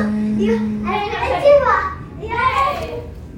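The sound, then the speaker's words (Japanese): Children play and chatter around a house, their high, lively voices rising and falling in overlapping bursts with a few louder calls. “ちょっと家の周り子供がめっちゃいて、ちょっとうるさいですよね。”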